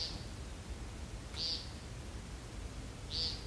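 Faint, short high-pitched calls of a migratory bird such as the American woodcock, repeated three times at roughly one-and-a-half-second intervals over a steady low hiss.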